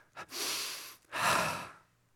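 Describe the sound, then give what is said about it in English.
Deep breathing, a slow drawn-in breath followed by a long released exhale, both airy and full, with a short pause between them and no talk. “Let's take a moment and breathe.”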